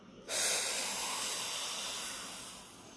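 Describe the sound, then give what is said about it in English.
A deep breath drawn in during a guided eyes-closed relaxation exercise: a loud, breathy rush of air that begins abruptly after a brief moment and holds steady for over two seconds, slowly easing off toward the end. “And take a nice, big, deep breath in.”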